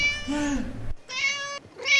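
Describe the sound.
A black and white tomcat meows three times, alone and fairly loud. The first meow is long and drawn out, the second is shorter and higher, and the third is cut off at the end.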